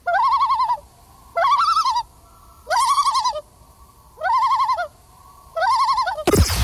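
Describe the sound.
A bird's tremolo call sounds five times in an even rhythm, each a wavering, quavering hoot-like phrase about a second long with short gaps between. The calls are loud and clear with no talking.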